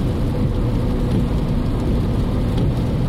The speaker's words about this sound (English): My tires sound funny. You hear that? Kind of make this sound. That's not good.